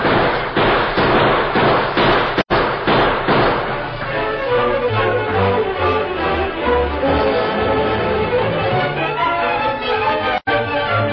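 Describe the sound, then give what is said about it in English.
Dense gunfire from many rifles as a radio-drama sound effect in a Western shootout, a loud, continuous barrage of overlapping shots with sharp cracks early on and a busier, rumbling volley later. “There must be 50 men shooting at it from those hills.”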